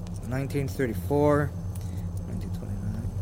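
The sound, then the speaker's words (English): Old Finnish markka coins dated 1927 to 1940 clink and jingle lightly as they are handled, giving a few soft metallic taps under a person talking. “Some coins. Just the fact that it's here means someone was here before us. Oh, they're marca. Finnish money from before the euro.”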